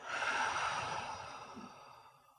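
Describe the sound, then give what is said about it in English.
A deep breath drawn in through the nose and let out through the mouth: one long, airy, sighing rush of breath that slowly fades away, with no talk. “Let's take a deep breath in through the nose and out through the mouth.”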